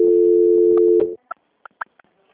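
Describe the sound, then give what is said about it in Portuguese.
A telephone ringing tone plays while a call is being transferred and nobody answers: one steady tone lasting about a second, then a few faint clicks and blips. “Que eu estou transferindo, eles não estão atendendo. Tá. Tá tudo bem. Transferência.”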